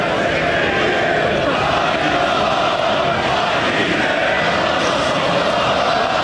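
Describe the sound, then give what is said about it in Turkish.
Football fans in Erzurum celebrating the yellow-and-reds' fourth title in a row and 26th championship overall, a loud and continuous roaring crowd din of many voices that holds steady without a break. “tüm yurtta olduğu gibi Dadaşlar Diyarı Erzurum'da da taraftarlar şampiyonluğu coşkuyla kutladı.”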